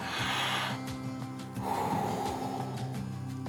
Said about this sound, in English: Let's take a couple of deep breaths and let that separate us from the pace of this world.